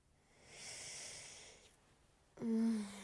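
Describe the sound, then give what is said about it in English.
Deep breaths: a long, soft airy breath swells and fades, then after a pause a louder, partly voiced exhale follows, like a heavy sigh. “Deep breaths.”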